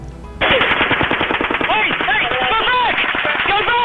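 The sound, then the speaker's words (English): Rapid automatic gunfire from the Las Vegas attack, recorded on a police body camera: a dense, loud stream of many sharp cracks continues without pause throughout. “Newly released police body cam video shows what responders saw on the ground as the attack in Las Vegas unfolded. Hey, they're shooting right at us, guys.”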